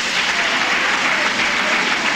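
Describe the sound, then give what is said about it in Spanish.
A church audience breaks into loud, dense applause, a continuous roar of many hands clapping at a constant level throughout. “Dele un buen aplauso a Jesús, porque Dios siempre da más de lo que pedimos.”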